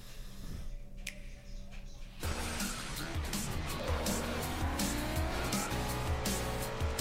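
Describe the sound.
Race car engines roar and tires squeal in a racing video game trailer for the Nintendo Switch. A quieter opening gives way about two seconds in to loud, sustained engine noise.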